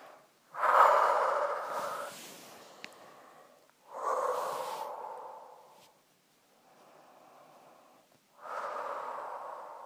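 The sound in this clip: Deep breathing during a guided relaxation exercise: a few long, loud, airy breaths swell and fade, separated by near-silent pauses and one softer breath, with no talking.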